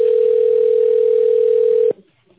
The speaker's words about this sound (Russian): Для соединения с оператором оставайтесь на линии. Выполняется соединение с оператором.